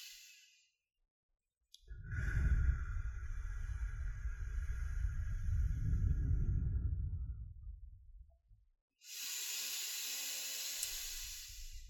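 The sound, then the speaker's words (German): Deep breaths drawn slowly: a long, low, rushing breath lasting about six seconds, then a pause and a brighter, hissing breath of air, both heard alone without talk. “Schließ deine Augen und beginne damit einige tiefe Atemzüge zu nehmen.”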